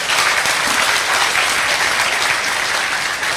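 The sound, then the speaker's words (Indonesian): An audience applauds for God during an Indonesian sermon, a loud and continuous wash of many hands clapping with no break for the whole stretch. “Ini rek ya, tepuk tangan untuk Allah Subhanahu wa Ta'ala.”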